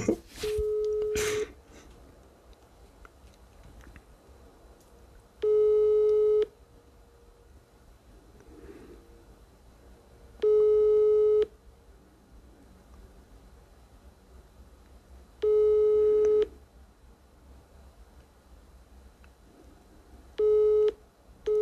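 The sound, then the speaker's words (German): Telephone busy signal during a prank call to a school: a steady mid-pitched beep about a second long, repeating five times at roughly five-second intervals, with faint hiss between the tones. “besetzt?”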